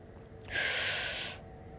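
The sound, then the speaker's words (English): A deep breath taken during a group breathing exercise: one long, airy rush of breath that swells, holds for under a second, then fades over quiet background hiss. “If you want to listen, take some deep breaths. Go ahead. Come on, let's breathe together.”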